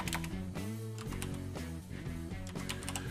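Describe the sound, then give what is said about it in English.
Fingers tap out a street address on a computer keyboard, producing a quick run of many crisp, clicking keystrokes at an uneven pace with no talking. “It labels it as download, but if I type in 161 East Grand Ave, give it a name,”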